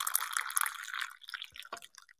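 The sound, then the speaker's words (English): Coffee pours into a cup in a soft, trickling splash that thins out and ends in a few faint drips. “So without further ado, let me pour you a cup.”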